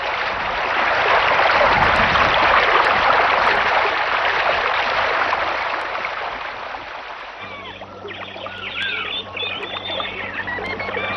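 Flowing water from a waterfall, a broad, steady rushing hiss that stays loud for about seven seconds, then thins and weakens as steady tonal sounds enter beneath it.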